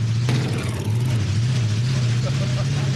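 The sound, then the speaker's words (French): A vehicle engine drones with a loud, steady, low hum under broad rushing noise, holding near one pitch throughout as it accelerates, on a rarely driven machine with a slight carburetion problem. “Bon, là, je vais accélérer.”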